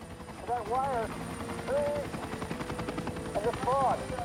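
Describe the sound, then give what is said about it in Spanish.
An FBI helicopter flies at night along Route 50 at about 150 metres, its steady rotor rumble running throughout while voices speak over it. “El piloto del FBI sigue la ruta 50. Mantiene una altitud de 150 metros mientras busca la luz estroboscópica.”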